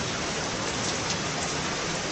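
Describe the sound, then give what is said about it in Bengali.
Large raindrops fall in a rain shower, a dense, steady hiss of constant patter at even loudness throughout, with no voices. “এক ঘন্টা যেতে না যেতেই মেঘের বুক চিড়ে বড় বড় বৃষ্টির ফোঁটা পড়তে শুরু করল।”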